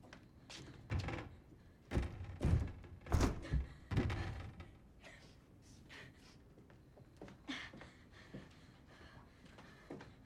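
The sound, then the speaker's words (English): Thuds, knocks and rattles as someone tries to force open stuck windows that are boarded up on the outside. A cluster of heavy, irregular bumps comes early, followed by softer, scattered rattling and knocking. “crosses the room and tries to open one window, then another”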